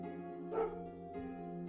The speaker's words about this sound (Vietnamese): Tiếng chó sủa văng vẳng truyền đến từ đâu đó.